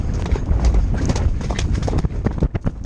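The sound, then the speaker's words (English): Rapid hoofbeats of a galloping horse, a loud, steady, driving clatter of hooves that carries on without pause throughout. “I'm hearing galloping.”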